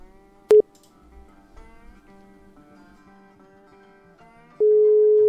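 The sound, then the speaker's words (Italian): A telephone tone plays on a redialed call that goes unanswered: one short beep sounds early, a quiet stretch follows, and then a loud, steady, even tone begins near the end and holds. “Richiamo, riprovo, vediamo un pochettino. E non riceve.”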